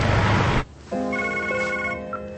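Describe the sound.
A mobile phone rings with a steady electronic ringtone of bright, sustained tones, following a short burst of noise.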